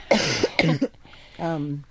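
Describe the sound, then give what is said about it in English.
A person coughing during allergy season: two harsh, loud coughs in quick succession, followed by a brief voiced sound. “you have to give me a minute to cough here”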